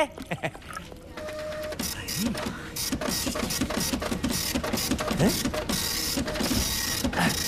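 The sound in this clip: A printer prints a document with a continuous mechanical whir and rapid rhythmic clicking of the paper feed, steady and fairly loud, with a brief voice early on.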